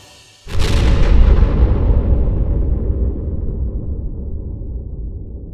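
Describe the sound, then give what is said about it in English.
An explosion as a character blows up high among the clouds: one sudden loud blast about half a second in, followed by a heavy, deep rumble that fades slowly over several seconds, with no voices. “And as you reach the clouds, you explode.”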